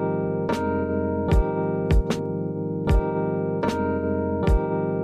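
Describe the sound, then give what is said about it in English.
A single snare drum cracks sharply and repeatedly in a lo-fi hip-hop beat, striking over sustained, warm chords, with two hits in quick succession near the middle. “Without a trick, if you only have one snare, it sounds like this.”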